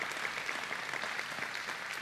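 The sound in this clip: A church audience applauds to welcome viewers joining online, a steady, even clapping that holds at a constant level throughout.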